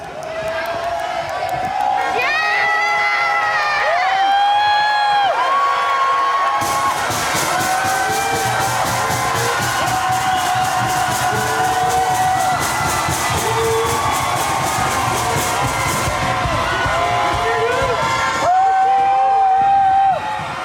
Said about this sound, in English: you're hearing now is from right outside the jail. In Uptown, all of the inmates are at their windows and flicking their lights and, you know, holding their fists up in the air, and that's what the crowd is cheering for.